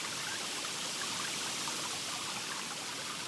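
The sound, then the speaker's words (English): A trickling countryside stream in dappled sunshine gives a soft, even hiss of running water that stays steady throughout, with no distinct splashes or voices. “Now that your whole body is relaxed, enjoy the sounds of this special place, your special stream”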